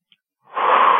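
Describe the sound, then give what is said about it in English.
A single deep breath drawn in: silence first, then an airy inhalation swells up and holds as a steady soft rush until the end. “So, if you're ready, let's take a deep breath together”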